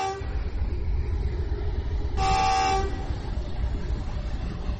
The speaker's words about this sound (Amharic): በያዝን ወር መጀመሪያ በእድሜ ብዛት ፉርጎቹ ቆመው የመገናኛ ሀዲዶቹ በርጅኖ ተበልተውና በአፈር ተውጠው የቆዩት የኢትዮ ጅቡቲ የባቡር መንገድ ሸከተፍ ብሎ እንዳዲስ ተነስቷል።